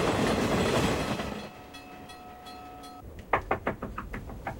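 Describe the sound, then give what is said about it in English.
A train rumbling through a level crossing at night. A heavy, broad rumble fades and a few steady sustained tones ring out, then rhythmic clattering wheel knocks on the rails follow, loud at first and then lighter. “Later, night falls as the train rumbles through a level crossing.”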